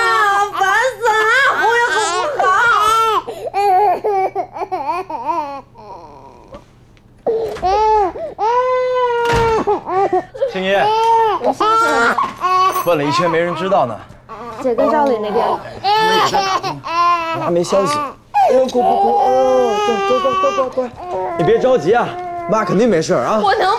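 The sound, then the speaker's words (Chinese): A baby cries in loud, sustained wailing bursts with sobbing breaks, while an adult voice speaks soothingly over the crying. “不哭了，不哭了，不哭了，好不好？不哭了。”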